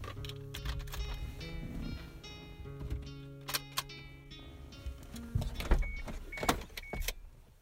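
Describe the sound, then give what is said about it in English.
A small Suzuki car driving north through Tasmania, with a low, steady engine hum inside the car and scattered clicks and rattles over it. “Ben and I packed our recording gear into my little Suzuki and headed north.”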